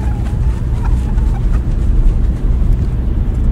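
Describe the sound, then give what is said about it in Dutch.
Steady road noise from a car on a long drive through France toward Portugal: a continuous low rumble with a broad hiss above it, holding even in loudness throughout without any talk. “Ik rij ons naar Portugal.”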